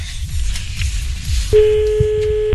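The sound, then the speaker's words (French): A telephone call being placed to a doctor: a low, faint rhythmic patter gives way midway to a loud, steady electronic line tone that holds unbroken to the end. “on l'appelle le docteur Homf.”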